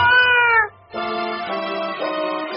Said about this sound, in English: Come down, little cat!